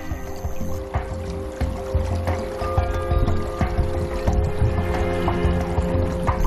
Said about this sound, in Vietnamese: Nước liên tục chảy qua các ống thủy tinh đặc biệt